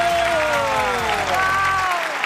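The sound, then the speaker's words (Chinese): A live audience of football fans at a Beijing stage event claps and cheers in a dense, loud, continuous burst that stops abruptly shortly before the end. “明显他们给你的欢呼比给我的热烈。”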